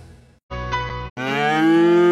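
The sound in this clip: A farm cow in a herd moos twice in long, deep, loud back-to-back calls, the second lower and longer, after a brief fainter sound at the start.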